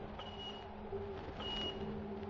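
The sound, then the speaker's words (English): Sonar echo-ranging pings from an enemy ship searching the water: two high, clear tonal pings spaced about a second apart over a steady low mechanical hum. “Echo ranging, sir. He hasn't got us yet. Just poking around.”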